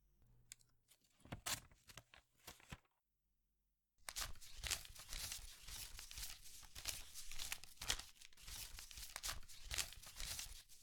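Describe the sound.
An envelope is torn open in a few sharp ripping bursts, then a brief pause gives way to a long run of rapid, crisp flicks and rustles as banknotes are counted one after another.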